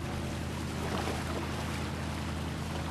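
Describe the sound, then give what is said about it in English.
Boat crossing a wide stretch of water in Venice: a steady engine drone with low hum and a continuous rush of water, unchanging throughout, with no voices. “The boat takes Damien across a wide stretch of water towards more historic buildings.”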